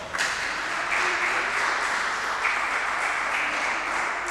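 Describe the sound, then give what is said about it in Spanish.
Steady applause from an audience at a prize draw, a dense even patter of many hands that holds at a constant level throughout, with no voices over it. “Un aplauso.”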